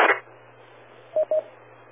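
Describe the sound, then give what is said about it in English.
Two short, mid-pitched beeps of a ham radio repeater courtesy tone follow a brief burst of static, with a steady low hum and faint hiss running throughout. “I'm not sure you're coming through the repeater because I can hear the courtesy tones before you come in, so you may be on simplex.”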